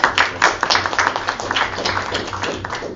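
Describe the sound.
Audience applause welcoming a guest lecturer in Wisconsin before his talk on post-Soviet lustration and relations with Russia; dense, steady clapping fills the whole clip with a low hum underneath.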